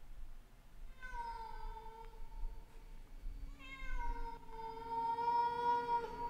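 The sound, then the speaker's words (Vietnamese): A large black cat on a neighbouring rooftop gives two long, wavering, faint meows, the second drawn out longer, over a low background hum. “có tiếng con mèo văng vẳng kêu lên”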